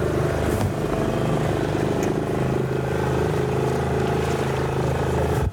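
Motor drone of a small boat on the Dnieper river, a steady low hum with layered engine harmonics that runs unbroken and then cuts off abruptly at the end.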